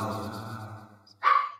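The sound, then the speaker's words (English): One short, sharp dog bark rings out at the end, after a fading tonal sound. “Oh, that made my dogs bark.”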